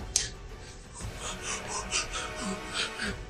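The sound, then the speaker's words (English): A voice imitates the panting of out-of-breath cultists in a tabletop roleplaying game. It makes a quick run of wheezy, raspy breaths in an even rhythm, kept fairly soft. “That's the cultists' turn. They're out of breath. They're not in good cardio.”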